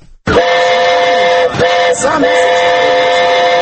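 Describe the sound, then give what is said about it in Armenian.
A children's amusement train runs in a city square during the winter holidays. Its loud, steady whistle-like tone sounds almost the whole time, broken by two brief dips. “Հանրապետության հրապարակում 6 այսպիսի մանկական գնացքներն աշխատում են հունվարի 5-ից առավոտյան 9-ից մինչև կեսգիշեր։”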